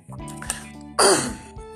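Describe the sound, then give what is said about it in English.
A single loud, rough throat clearing, a harsh gravelly burst after a low steady hum and murmur. “clear my throat.”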